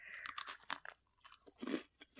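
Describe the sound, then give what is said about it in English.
Quiet, irregular crunching as someone bites into and chews a lemon Oreo cookie, with a few sharper crisp crunches among softer wet chewing sounds. “So here's a fresh new lemon Oreo for you. Not to be confused with lemon Hydrox. They look very similar. Also a classic combo. Now, I've always thought that regular Coke just tastes like lemon, so I think this is going to be fine. Do you want to eat cookie first? Yeah, okay.”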